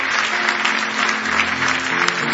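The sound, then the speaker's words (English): An audience gives big hand claps of praise at a worship service. The applause is thick and continuous, holding a steady, even level throughout. “Give Him a big hand clap of praise if you love Him tonight.”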